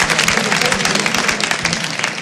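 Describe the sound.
An audience applauds, dense and continuous clapping at steady volume throughout.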